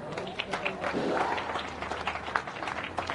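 Audience applause for race winners at a podium ceremony: dense, steady clapping from a crowd that holds at an even, fairly loud level throughout with scattered sharper claps.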